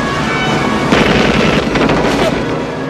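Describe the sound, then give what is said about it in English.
Rapid machine gun fire from a dramatized shootout aboard a boat, loud and dense, with sharp cracks packed over a heavy low rumble throughout. “Annette's body flies backward as Sean riddles her with bullets. He props his machine gun on the railing and aims at Jack's boat.”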